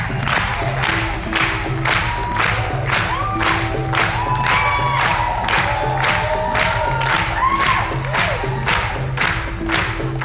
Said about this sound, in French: Là, on clappe en rythme pour soutenir le danseur de Port Authority, film dans le monde, qui se passe dans le monde du voguing, présenté un certain regard.